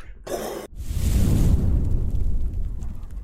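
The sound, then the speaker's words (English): Fire sound effect: a short burst of noise, then a loud, sustained roar of flames, heavy in the low end, that carries on to the end. “Cue the fire sound.”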